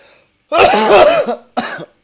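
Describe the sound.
A person coughs twice: a longer, harsh burst is followed by a shorter one, both fairly loud with nothing else heard between them.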